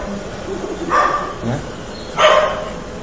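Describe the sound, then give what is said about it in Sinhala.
A dog barks outside during a Buddhist sermon, giving a few short, moderately faint barks over a steady background hiss. “මොන කරදරයක්ද බල්ලෙක් ගුරනවා අපිට බණ අහගන්නත්.”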